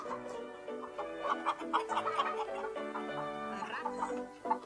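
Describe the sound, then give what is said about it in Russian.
Hens clucking inside a peasant hut, with many short, uneven clucks and squawks following one another at a moderate, fairly quiet level. “По избе ходят куры. Хватает маленькую подушечку, прогоняет курей.”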